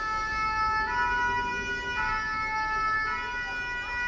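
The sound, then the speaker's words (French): A fire engine siren, the very loud alarm that warns drivers the truck is coming through. It gives a steady, bright, multi-tone wail with a regular pulse about once a second and plays alone without speech. “C'est le son d'une sirène de pompier. L'alarme très très forte qui prévient les automobilistes que le camion va passer”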